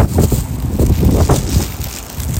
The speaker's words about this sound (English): There's the wind. It's a very windy.